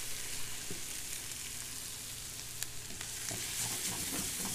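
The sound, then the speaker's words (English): Fresh garlic sizzles in a hot pan as it is stirred, a steady bright crackling hiss with occasional soft scrapes and ticks from the stirring, with no talk. “And now for those last minute or so, I'm gonna hit the fresh garlic in there.”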